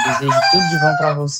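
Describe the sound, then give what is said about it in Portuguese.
Rooster crowing runs beneath continuous talking, a drawn-out call held under the voice across the short stretch. “Olha o galo cantando. Olha aí.”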